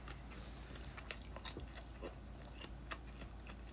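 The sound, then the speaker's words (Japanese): Smoked salmon being chewed gives soft, wet mouth sounds with small irregular clicks and crunchy snaps. The chewing is faint and close, with no talking. “咀嚼音がしますんで”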